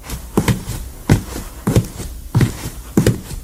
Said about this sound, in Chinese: 每日朝头早，只要他听到主管的脚步声，